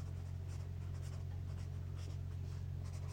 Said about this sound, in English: I'm writing it down, boy.